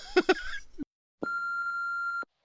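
A voicemail beep sounds as one steady electronic tone about a second long, after a brief vocal sound and a short silence.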